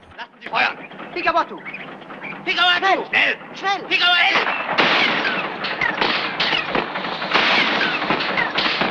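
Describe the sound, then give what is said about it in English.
Gunfire and bullets striking a steam-powered boat: dense, continuous bursts of shots and sharp cracks, loud throughout, mixed with shouting voices. “A hail of bullets pelt the African Queen.”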